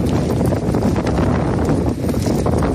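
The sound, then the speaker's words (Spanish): Very strong gusts of storm Domingos, reaching 140 to 160 km/h in Galicia, roar as a loud, constant, buffeting rush of wind across the whole clip. “Este es el sonido de las fortísimas rachas de viento de hasta 140 kilómetros por hora, en algún punto incluso en Galicia 160 kilómetros por hora, que se han sentido durante toda la noche,”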